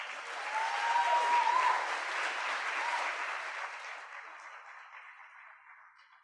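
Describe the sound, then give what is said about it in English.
An audience at Revival Christian Fellowship in Marietta gives a guest speaker a standing ovation. Dense, sustained clapping swells early, then slowly thins and fades toward the end. “That standing ovation was not necessary.”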